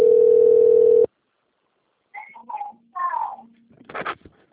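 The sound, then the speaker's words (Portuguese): A telephone ringback tone, heard while placing an outgoing call: one steady, even tone lasting about a second, then a cut to quiet with a few short, scattered sounds. “tá ligando aqui, peraí. É, chamando aqui, pedi pra mim apertar um zero aqui.”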